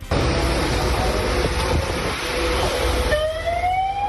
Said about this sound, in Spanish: Es el sonido de las grúas y las máquinas retirando los coches incrustados entre el lodo ya compacto en el barranco del Pollo